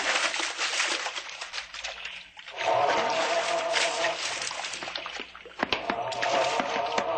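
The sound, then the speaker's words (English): Water splashing from someone swimming an overhand side stroke, a continuous churning slosh with repeated surges of spray, moderately loud throughout. “Take it easy with that overhand side stroke, honey. We've got a long way. Keep swimming, sailor.”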